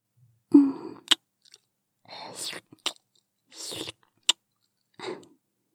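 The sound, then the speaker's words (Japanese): Quiet, wet licking mouth sounds come in several short bursts of soft smacking and breathy rustle, each separated by silence and punctuated by sharp tongue clicks. “はい、もちろん、喜んで舐めさせていただきます。”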